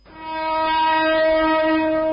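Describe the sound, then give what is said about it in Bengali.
A train horn at the busy Kamalapur railway station platform in Dhaka: one loud, steady blast with a rich, buzzy harmonic tone that swells in quickly and holds unbroken to the end. “ভোরের আলো ফুটতেই Kamalapur railway স্টেশনের প্ল্যাটফর্মে চিরচেনা ব্যস্ততা। ঈদ উদযাপন শেষে ফের কর্মস্থলে ফিরছেন রাজধানীবাসী। ট্রেন থেকে নামা যাত্রীদের”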